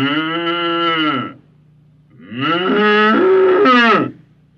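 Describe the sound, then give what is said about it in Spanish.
A bull bellows twice: two loud, deep, harmonically rich moos separated by a short pause, the second one longer than the first. “el toro Van lanzó al aire los dos bramidos oficiales para llamar a reunión general”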